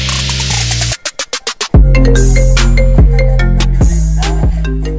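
A phone ringtone: a quick run of loud, evenly spaced electronic pulses, then a bright, repeating melodic pattern of synthetic tones.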